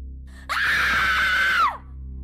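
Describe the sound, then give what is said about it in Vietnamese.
A single long, high-pitched scream rings out at night from a back garden. It holds steady for about a second, then drops off sharply over a low, constant hum. “đám gia nhân nghe tiếng hét từ phía sau vườn cũng bừng tỉnh giấc chạy ra xem sự thể.”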